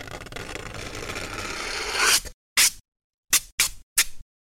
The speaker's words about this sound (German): Ihr reißt also ein Stück Alupapier ab und zieht die Kante langsam über die Pappe. Das hört sich dann so an.